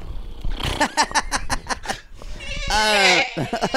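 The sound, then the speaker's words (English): A person's voice imitates a pony caught in a whirlwind with a run of short, choppy bleat-like whinnies, then a longer, wavering high-pitched cry near the end. The voice is fairly loud and fills the whole clip. “All right, y'all. This is a pony in a whirlwind.”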